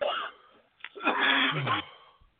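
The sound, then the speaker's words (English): Coughing and throat clearing from a man, a brief rough burst followed by a longer harsh, breathy fit with a low strained vocal edge. “See, we both coughing, man.”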